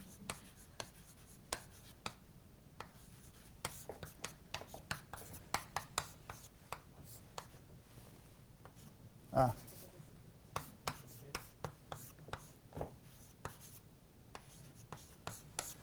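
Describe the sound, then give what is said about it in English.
Chinese characters are written by hand in many short, scratchy strokes and light taps at an irregular pace, with one louder knock midway, all fairly quiet over a low background. “Should I write the Chinese characters?”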